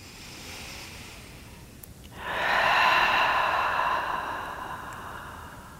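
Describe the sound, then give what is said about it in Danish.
A person breathes deeply during a slow stretching exercise with hip circles: one long, breathy exhale starts after a quiet stretch and fades gradually. “Trækker vejret.”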